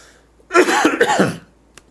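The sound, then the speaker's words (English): A person coughs in one rough, throaty burst lasting nearly a second, loud against a quiet background, followed by silence and a faint tick. “Let me mute my mic here so I can cough.”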